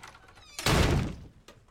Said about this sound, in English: George Cooper, played by Lance Barber, storms away from the table and slams the door.